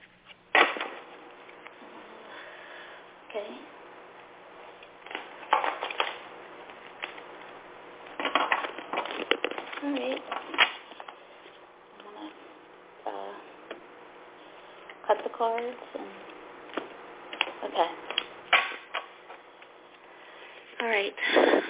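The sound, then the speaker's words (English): Playing cards are shuffled and handled in intermittent bursts of crisp flicking and riffling clicks, with quiet pauses between clusters, over about twenty seconds. “I'm going to shuffle some cards and see what they give me.”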